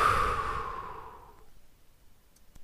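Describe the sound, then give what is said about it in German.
One long, breathy exhalation like a sigh, from a breathing exercise, fades out over about a second and a half and gives way to near silence. “Und einatmen und ausatmen.”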